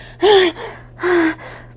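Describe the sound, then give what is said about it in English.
Two sharp, loud gasps for breath come from a winded person, each a short rasping intake, separated by a brief pause and each followed by a fainter breath. “I can't even catch my breath. My breath.”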